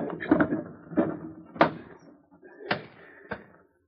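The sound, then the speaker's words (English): Wooden window shutters being opened with a few sharp knocks and clacks. They come at uneven intervals, moderately loud against near silence, and the last one is softer. “Well, it wouldn't hurt none to open a few shutters on the windows and let a little sun get in.”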